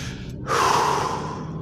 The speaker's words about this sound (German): dreimal tief einatmen und ganz bewusst wieder ausatmen